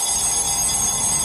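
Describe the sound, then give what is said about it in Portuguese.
Alarm clock ringing at 4:28 in the morning: a continuous, rapid, metallic bell ring that stays loud and steady throughout, with no talk over it. “Acorda o povo aí, despertador.”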